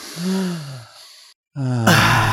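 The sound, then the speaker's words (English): A deep breath drawn and released as a long, voiced sigh on a count of three, followed by a second loud sighing exhale that ends in a breathy rush of air. “On the count of three, take a nice deep breath.”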